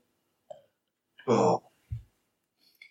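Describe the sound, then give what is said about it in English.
A short, low, voiced burp lasting under half a second, followed by a brief low thump, with a few faint scattered sounds around it. “Sorry, I done a burp.”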